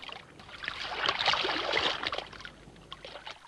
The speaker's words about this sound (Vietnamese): sàn nhà cũ nhiều lỗ thủng cẩn thận kẻo rơi đồ xuống biển. Dưới sàn nhà là mênh mông nước.